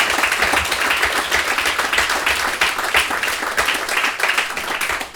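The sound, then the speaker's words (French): Audience applause after a talk at a science café on archaeology: dense, steady clapping from many hands, sustained at an even level throughout. “Alors, on applaudit encore très fort Sandrine Delpech pour son intervention.”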